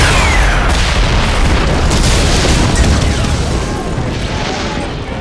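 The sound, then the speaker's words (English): A fuel depot explodes after a rocket launcher hit, producing a loud, dense roar that rumbles steadily for several seconds and then eases off slightly toward the end. “I picked up the rocket launcher and aimed at the tank. You know what to shoot? The tank? Not the tank. The fuel depot.”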